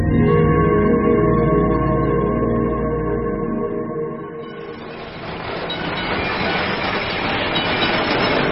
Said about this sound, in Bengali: পৌষ মাস, ঠিক সন্ধ্যের সময় এক ব্যক্তি কালীঘাটের ট্রাম থেকে ভবানীপুর থানার সামনে নেমে পড়ল।